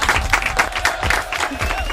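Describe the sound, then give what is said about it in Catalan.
Applause from a group, a loud run of quick, fairly even claps that pulse steadily from start to end. “Molt bé. Molt bé, aplaudiments.”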